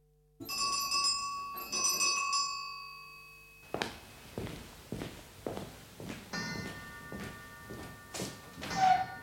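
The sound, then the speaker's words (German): A clock striking the hour gives two ringing, sustained chimes, followed by a series of footsteps and soft thuds, with a faint bell-like tone near the end. “Die Uhr hat eben geschlagen.”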